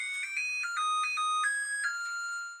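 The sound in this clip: A home appliance plays a short electronic chime melody after reheating coffee. Several pure, high-pitched notes step up and down, and the last note holds and fades. The melody is fairly quiet and heard alone.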